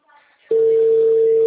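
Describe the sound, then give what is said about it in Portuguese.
A steady telephone tone while placing a call: after a brief faint rustle, a single unbroken mid-pitched tone starts abruptly and holds loud and even to the end. “Tô ligando pra ela.”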